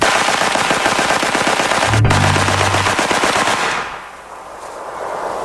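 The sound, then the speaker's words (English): A gun is bump fired, recoiling against forward pressure so the trigger is struck again and again, producing a dense, rapid stream of loud shots like automatic fire. The shots stop abruptly near the end, leaving quieter background noise. “keep forward pressure on it, so the gun is going to bounce and you're just going to bump the trigger. And that's what bump firing is.”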